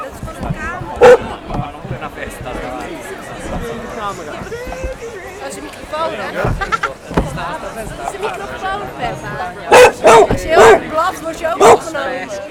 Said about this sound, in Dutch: Ik word nu achterna gezeten door een hond. Die denkt dat ik op krukken loop.